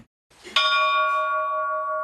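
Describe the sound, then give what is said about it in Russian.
A church bell is struck once and rings on with a bright, steady tone that fades only slightly, after a faint rustle just before the stroke. “Колокольный звон – это прежде всего обращение к Богу. Это молитва в звоне.”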